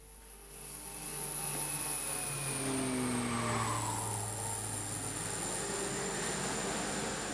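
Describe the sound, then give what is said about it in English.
An aircraft flying overhead above people on Arctic ice, a broad engine roar that swells within the first second and then holds loud and steady, with droning tonal hums through it and no talk. “Then these next few shots might just give you an idea of what it's like to be on the ice. It shows the aircraft flying over the top of us. I think you can put the sound back up.”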